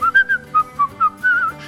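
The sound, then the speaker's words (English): A person whistles a short, bright tune of quick, detached notes, ending in a longer slurred phrase, clear and alone. “Song there, isn't it? Whistle while you wee.”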